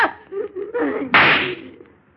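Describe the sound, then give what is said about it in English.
A single gunshot is fired in a dramatic confrontation, a sharp loud burst that rings and decays over about a second, following a short stretch of voices. “in just 2 seconds, I'm going to shoot you right through the heart.”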